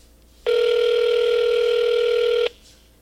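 A single steady telephone tone rings out loud and alone for about two seconds as a call is put through to a caller, then cuts off abruptly.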